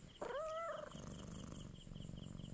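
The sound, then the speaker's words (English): A cat purring contentedly while being stroked and having its ears rubbed: a short high tonal call at the start, then a steady, low, rhythmic purr that continues to the end. “The lady stroked Blackie's fur and rubbed her ears, and as the cat liked it, she purred.”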